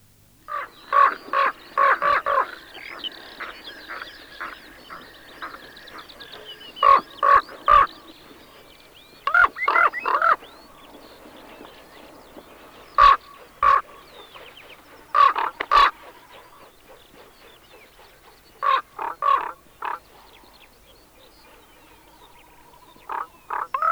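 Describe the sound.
A common raven calls in many harsh, loud croaks that come in short irregular clusters separated by brief pauses, with a faint steady background hiss between the calls.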